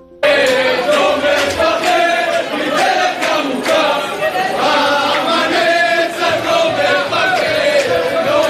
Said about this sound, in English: These were some of the jubilant sounds tonight at Ben Gurion Airport in Tel Aviv. People waving flags and singing as passengers emerged safely after a terrifying ordeal aboard a Fly Dubai flight en route to Israel